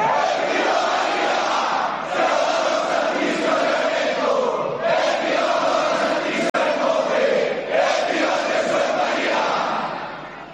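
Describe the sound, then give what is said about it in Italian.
A crowd shouts "Evviva!" in unison for the Pope, a loud, sustained roar of many voices that rises in several successive swells, each held for a couple of seconds before the next surge. “E allora, per il Santo Padre, per queste persone, dimmi una volta Evviva!”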